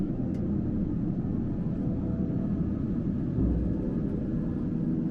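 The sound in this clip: Steady low rumble of a Beechcraft King Air light aircraft on a chartered flight bound for Alice, a dense continuous drone with a brief swell partway through.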